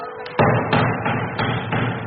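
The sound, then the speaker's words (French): Irregular knocking on a temple door at a Masonic lodge: several heavy, dull thuds in an uneven rhythm, each followed by a lingering low rumble. “Qui frappe irrégulièrement à la porte du temple ?”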